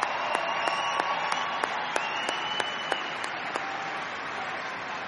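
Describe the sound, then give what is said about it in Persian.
Sustained audience applause for performers at an evening event, dense clapping holding a steady level, with a few sharper individual claps standing out. “واقعا یه دست برای بابک.”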